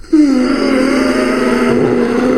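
A man's normal breathing, heard as one sustained, steady, voiced groaning tone that holds at a low-mid pitch for about two seconds with rich overtones and even loudness throughout.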